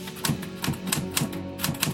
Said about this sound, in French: prend sa machine à écrire et rédige un pamphlet de 32 pages